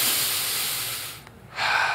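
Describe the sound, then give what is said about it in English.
A person takes a deep breath: a long, airy hiss of inhaled air, a brief lull, then another breathy rush of air. “All right, take a deep breath”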